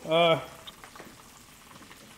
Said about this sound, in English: this spam, I'm only going to be able to hold it. I'm only going to be able to hold it quickly because it's still dripping oil. But it's browning, but it's still too soft.